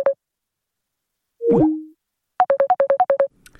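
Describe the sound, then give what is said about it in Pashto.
Electronic telephone tones sound after a caller's line drops: one short beep, then a brief sliding plop-like tone, then a quick run of many short, evenly spaced beeps, with no talk. “لکه چې دی اوریدونکو سره زموږ اړیکه پرې شوله”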